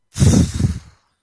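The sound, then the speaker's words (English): A deep, forceful breath during a breathing exercise: one loud, breathy rush lasting under a second, with no other sound around it. “And with another deep breath, you just really inhale deep, deep, deep into the belly. And just blow it out hard.”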